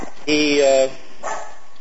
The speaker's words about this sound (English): Somebody's dog is barking in the background.